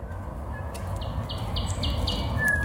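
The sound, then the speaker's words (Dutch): A thrush nightingale sings outside the window of a country house: a run of five short, evenly spaced high notes over a steady low background rumble, with a couple of faint chirps around them. “Een Noordse nachtegaal. Zien en horen we zelden in ons land”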